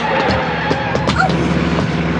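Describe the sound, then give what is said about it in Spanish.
A car speeds along and skids. A loud, steady roar of engine and road noise fills the whole stretch, and a brief high tire squeal cuts through near the middle. “Un auto se precipita contra ellos a toda velocidad.”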